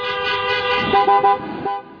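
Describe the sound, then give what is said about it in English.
Many car horns honking outside the Michigan state capitol during a protest against stay-at-home orders, overlapping sustained tones with a few short toots, loud and steady before fading at the end. “armed protesters took to the Capitol while thousands honked their horns outside”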